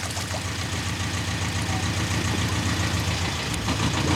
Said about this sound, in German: Ein Schornstein. Blauer Rauch. Das sind Leute, die von weit her kommen. Sie haben einen Motor.